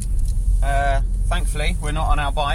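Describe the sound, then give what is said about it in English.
Car heater blowers run in a steady, loud whoosh of air inside a team car on a freezing day, continuing under people talking. “That's the sound of the air heaters, air blowers.”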